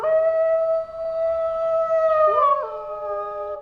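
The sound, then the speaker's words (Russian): A long, mournful, hungry howl sounds in the distance as a sustained, steady-pitched tonal cry. Near the end a second wavering voice overlaps it. “И словно в ответ где-то вдали послышался заунывный, долгий, полный голодной тоски вой.”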